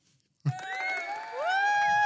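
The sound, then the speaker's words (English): Excited whooping cheers from a live audience burst in after a brief silence, with voices rising in pitch and carrying on loudly to the end. “That's just our live audience.”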